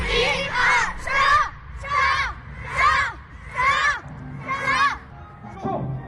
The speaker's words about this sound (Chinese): 走进银川市金凤区实验小学，孩子们昂首挺胸，马步、弓步、冲拳、勾拳，一招一式有模有样。